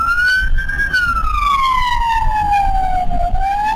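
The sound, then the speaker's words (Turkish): An ambulance siren in Istanbul's Büyükçekmece district rushing a patient: a loud, steady wail that rises briefly, slides slowly down in pitch, then begins climbing again over a low rumble of road traffic. “İstanbul Büyükçekmece'de bir ambulans hastayı yetiştirmeye çalışıyordu.”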